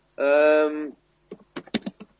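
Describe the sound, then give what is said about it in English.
Several sharp, quick clicks of someone typing on a computer keyboard, coming in an uneven burst after a brief sustained tone. “Do you reckon you could leave the keyboard alone for a bit, because it's probably going to be a bit distracting for people?”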